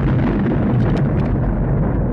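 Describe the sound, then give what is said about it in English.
A sonic boom from a plane breaking the sound barrier: a loud, deep, continuous rumble that holds steady for about two seconds. “The people on the ground hear the boom. They think it might be the noise signaling his death, that somehow he's just exploded up there. They don't know what could go on when you're trying to break the sound barrier.”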